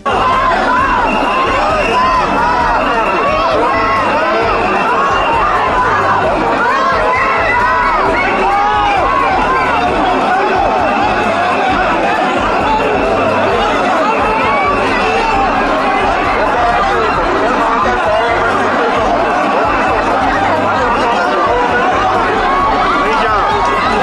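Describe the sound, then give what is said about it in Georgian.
Protesters shout outside parliament in Georgia, a continuous loud clamor of many overlapping voices and cries that stays dense and unbroken throughout. “მოვისმინოთ შეძახილები ადგილიდან.”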